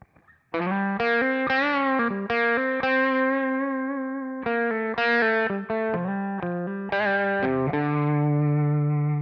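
An electric guitar recorded through a DI with processing plays a melodic line of many sustained, distorted notes with a shimmering, chorus-like effect. It rings loud and alone throughout.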